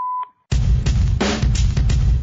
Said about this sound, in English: Hello. Please leave a message after the tone.